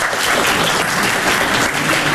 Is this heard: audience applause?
yes

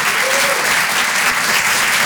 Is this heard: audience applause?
yes

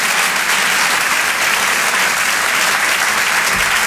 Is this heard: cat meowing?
no

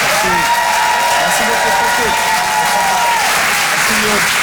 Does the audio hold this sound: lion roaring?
no

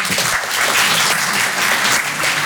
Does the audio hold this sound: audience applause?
yes

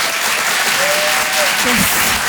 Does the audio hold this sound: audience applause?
yes

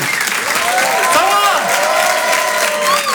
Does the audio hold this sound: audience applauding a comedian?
yes

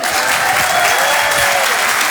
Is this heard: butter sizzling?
no

